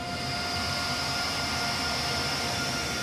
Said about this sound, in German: Der Tscheche mit deutschem Lokführerschein steuert den Güterzug Nummer 44399 von Hamburg nach Jetschin,